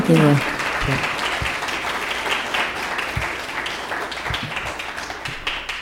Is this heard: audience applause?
yes